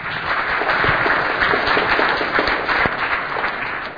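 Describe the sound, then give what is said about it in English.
Audience applause at a technical conference talk, a steady, fairly loud wash of many hands clapping that holds evenly throughout without voices. “Don't clap, I haven't done anything yet.”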